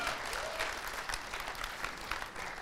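Audience applause welcoming four contestants onto a show: a dense, steady wash of clapping from a crowd that holds an even loudness throughout, with no voices over it.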